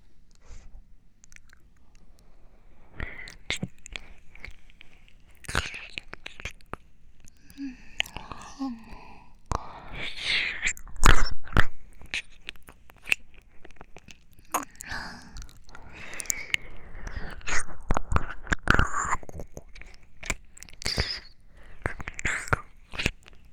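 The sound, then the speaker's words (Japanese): Close-up mouth eating sounds of chewing and biting, with irregular wet clicks, smacks and crunchy bites. The sounds are sparse at first and grow busier and louder midway, with faint breathy whispers in between. “耳でいい私の舌を堪能してね。それじゃ、いただきます。”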